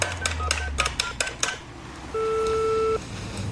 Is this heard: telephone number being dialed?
yes